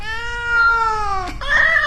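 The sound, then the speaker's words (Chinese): A cat meows in two drawn-out, tonal cries. The first is long and slowly falling; the second is shorter and higher. “你和这只猫”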